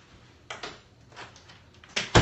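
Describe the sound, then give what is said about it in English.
Door being closed, heard as a few soft thumps and clicks, with the loudest knocks coming near the end. “So I'm gonna close the door, hold on.”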